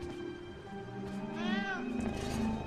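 A cat meows, a short, high, wavering cry rising and falling in pitch, heard against a faint steady hum.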